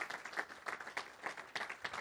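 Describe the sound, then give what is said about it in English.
An audience at a Christian sermon claps in a faint, steady rhythm of several evenly spaced claps. “See, yeah, you can clap for Jesus.”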